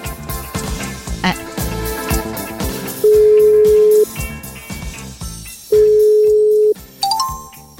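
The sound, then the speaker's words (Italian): A telephone busy signal sounds as two loud, steady mid-pitched tones, each about a second long and separated by a gap, set among busy mixed background sound. “No, è che mi dai occupato”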